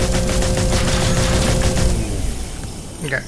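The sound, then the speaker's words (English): Video game gunfire rattles in a dense, continuous burst of rapid shots. It stays loud for about two seconds and then tapers off. “to fire, you hold down the space bar.”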